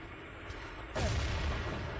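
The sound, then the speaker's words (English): Grenade explosion in a shooter video game: one sudden deep boom about halfway through, with low rumble trailing off over steady background noise. “Big grenade”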